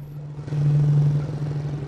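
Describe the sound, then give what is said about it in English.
A quad bike carrying a passenger into a settlement drives along, a steady low engine drone holding an even pitch with some faint rattle, moderate and unbroken throughout. “travels on the back of a quad bike into the settlement”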